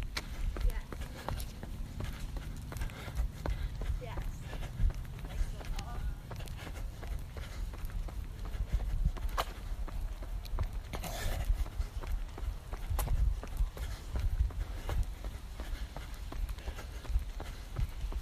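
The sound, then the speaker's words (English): Footsteps of someone running down a street on a city zigzag route, a steady rhythm of many quick footfalls under continuous low background noise. “Alright, heading down the 3rd Street zigzag. The places that I run by.”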